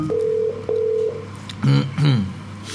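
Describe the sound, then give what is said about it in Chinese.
Telephone tones as a call is dialed: two steady beeps of the same pitch, each about half a second long, followed by short bursts of a voice on the line. “卢生， 希望搭通佢， 系补得翻个电话吓。 咁啊，搭通佢电话啦”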